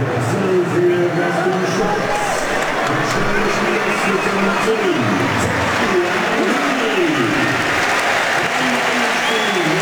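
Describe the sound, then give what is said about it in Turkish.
Applause rolls around a football ground in Switzerland as a substituted player leaves the pitch: continuous, even clapping from the crowd for the whole stretch, with a man talking over it. “Alkışlar Botelli'ye.”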